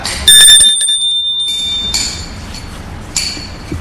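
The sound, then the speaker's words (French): A doorbell rings at the door of an old one-storey presbytery beside a church, a few bright, high metallic rings with ringing tails between them. “Elle sonne, très intimidée.”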